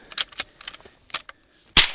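A single sharp, loud gunshot cracks out near the end, fired at an Australian brush-tailed possum in a tree on a small farm, after faint scattered clicks and light handling noises.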